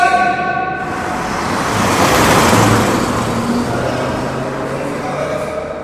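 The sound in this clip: A car speeds past, nearly running someone down: a broad roar of engine and tyre noise that swells to a peak and then slowly fades, with no voices.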